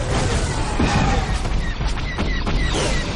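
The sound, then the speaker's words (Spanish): Large cannons fire at X-wing fighters during a Star Wars film battle. The barrage is a dense, loud, unbroken wash of rumbling blasts and crashes with a few brief high-pitched zips. “Fuera grandes cañones disparan a los ala X que siguen luchando con los Tai.”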